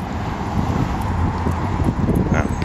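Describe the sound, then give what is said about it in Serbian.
Wind blowing in New York roars across the microphone as a steady, dense rush of noise that buffets and gusts unevenly for the whole stretch. “Evo, vetar. Koliko je već, ne znam, 20-30 dana duva non stop. Svaki dan stalno non stop.”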